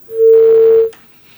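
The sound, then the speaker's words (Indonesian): A landline telephone call connects with a single steady, mid-pitched tone lasting under a second, followed by a brief click and then near silence. “saya angkat lagi nih penelpon dari telepon biasa”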